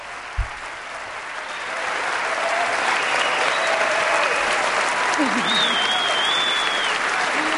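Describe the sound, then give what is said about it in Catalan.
A big ovation from the hall at the Oscars as presenters walk to the microphone. Clapping starts at a moderate level and swells after about two seconds into sustained, loud applause, with a voice talking over it. “I una ovació gran de la sala.”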